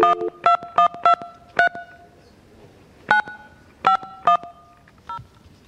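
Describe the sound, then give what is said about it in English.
Telephone keypad tones as a company number is dialed by hand, about nine crisp separate beeps in irregular bursts with short pauses between, loud against a quiet background. “and I just dial this thing”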